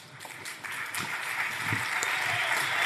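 Audience applause welcoming a guest on stage starts faintly, then swells into dense, sustained clapping that carries on to the end.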